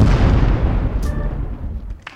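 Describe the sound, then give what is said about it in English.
A loud, deep explosion booms out as a pair of pants blows up, a broad rumbling blast that fades gradually over about two seconds, with a faint crackle near the end. “Caution, if you call us, your pants may explode.”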